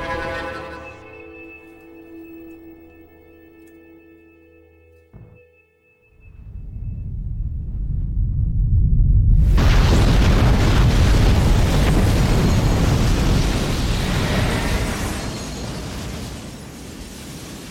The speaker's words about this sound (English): found a 400-pound bomb with a destructive force of 20,000 tons of TNT mushrooming up over the stunned enemy city